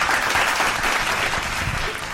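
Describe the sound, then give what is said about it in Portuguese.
An audience applauds a guest with dense, steady clapping that stays loud and eases slightly toward the end. “Palmas pra Jessie, gente, muito bem.”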